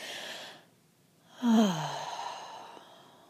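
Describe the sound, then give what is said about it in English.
A deep breath: a soft airy inhale, a short pause, then a louder, longer exhale carrying a brief voiced sigh that drops in pitch before trailing off. “let's begin with taking 3 deep breaths”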